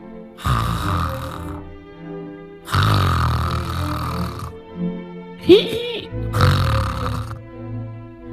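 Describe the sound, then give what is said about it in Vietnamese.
Loud snoring from an old man lying in bed, with a few long, rasping, throaty snores separated by pauses and a brief grunting sound between the later ones. “Lão ngáy vừa to mồm vừa thối quá.”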